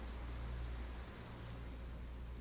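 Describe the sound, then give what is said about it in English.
Rain falling in a steady, soft, even hiss of raindrops, quiet throughout with no distinct drips standing out. “you notice the raindrops streaking towards your face, in defiance of gravity.”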